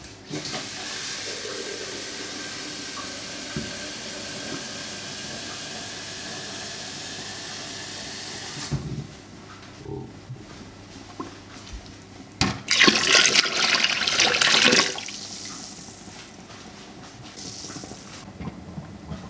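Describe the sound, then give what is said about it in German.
Boiling and hissing come from an electric preserving cooker filled with hot water and glass jars. A steady, rushing hiss runs throughout, dips quieter midway, then swells into a louder surge of bubbling hiss before settling again. “Und wir hören tatsächlich schon Kochgeräusche aus dem Ofen. Aus dem Einkochautomat.”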